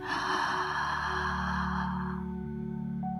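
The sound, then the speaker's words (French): A slow, deep inhalation through the nose during a guided relaxation exercise: a soft airy rush lasting about two seconds, then fading, over a steady sustained tone. “prenez une profonde inspiration par le nez.”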